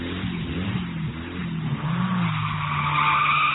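Tires squeal and skid as a car pulls away, burning rubber, with the engine revving underneath. The sound is one continuous grinding screech that swells louder toward the end.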